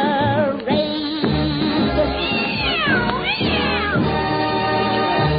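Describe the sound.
Cat-like meowing and caterwauling over a busy musical backing, with several drawn-out, wavering tones that rise and fall at a fairly high pitch.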